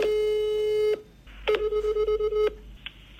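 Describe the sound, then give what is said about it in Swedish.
Telephone tones as a call is dialled: a steady electronic tone holds for about a second, then after a short gap a quick string of pulsed beeps follows, ending with a faint isolated blip. “Kan vi inte ringa Pontus bara för en liten, säga hej?”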